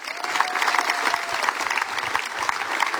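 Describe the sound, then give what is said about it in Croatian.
Warm audience applause welcomes a poet and performer onto a stage at a concert. Dense, steady clapping continues unbroken at an even level throughout. “pa ćemo ga teplin aplauzom i pozdraviti.”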